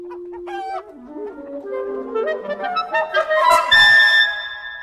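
Turkeys calling on a farm: a string of warbling, harmonic calls that climb higher in pitch and grow louder toward the end, with no talking.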